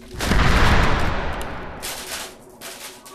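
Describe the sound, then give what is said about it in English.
A coffee table explodes in one loud, booming blast that rolls into a long rumbling decay, followed by a few sharper crackling bursts as the noise fades. “Your coffee table exploded if I hadn't gotten up.”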